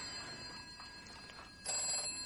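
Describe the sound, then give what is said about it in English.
A telephone ringing with a faint, steady, high-pitched trill that jumps noticeably louder partway through. “Telephone. I'm not a telephone. No, it's ringing.”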